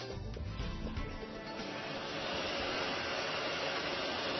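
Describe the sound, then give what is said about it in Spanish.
A printing press runs off Bible sheets at around thirty thousand per hour, a dense, steady mechanical roar and whir that holds at a constant level from start to finish without talk. “Esta es una de nuestras 3 prensas dedicadas a imprimir Biblias. Imprime láminas de Biblia como esta, cerca de 30.000 por hora, y esta es la que usamos para fabricar las Biblias.”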